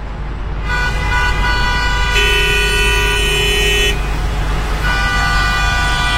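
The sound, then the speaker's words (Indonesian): Car horns honk in a traffic jam over a loud, steady rumble of engines, with several long, overlapping horn blasts that sound one after another. “Macet lagi”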